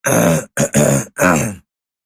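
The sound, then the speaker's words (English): A person clearing their throat in four loud rasping bursts, the second one short, then silence. “Let me just clear my throat off recording.”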